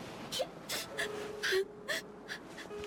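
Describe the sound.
A woman sobs as she walks along a moonlit road at night. She makes a series of short, breathy gasps and whimpering catches, some carrying brief high wailing tones, faint and irregular in rhythm.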